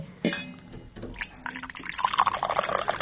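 Cold, fresh water poured from a jug into a glass, a splashing trickle that grows busier and brighter through the second half, with a few small taps and drips before it.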